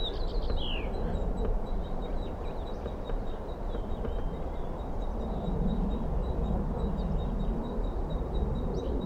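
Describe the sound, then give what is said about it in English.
A female bird gives begging calls beneath its nest tree: thin, high notes repeated throughout, faint over a steady low rumble. A brief descending call comes at the start. “I'm underneath the nest tree. This is the female begging.”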